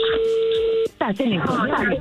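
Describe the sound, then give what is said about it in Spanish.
A telephone being dialed to place a call gives a steady, even electronic tone that holds for under a second and then cuts off, after which people talk over the line. “se está marcando a ver qué pasa”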